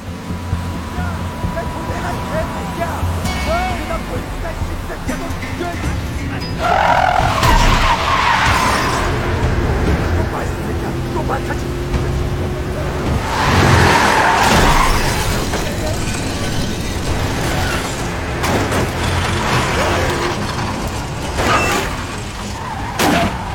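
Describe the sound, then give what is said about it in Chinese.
Tires skid and screech during a car chase in the Korean film Asura, a police officer pursuing a gang's vehicle. Loud, continuous engine noise swells into bursts of screeching, strongest around the middle of the scene. “拼了命的追上去跟这伙打手飙车。”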